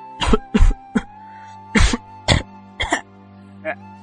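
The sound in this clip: Harsh coughs and throat clearing performed by a narrator for a character in an audiobook, several loud separate bursts with short pauses between them.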